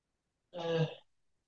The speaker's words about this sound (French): Une deuxième, inspiration. Et expiration.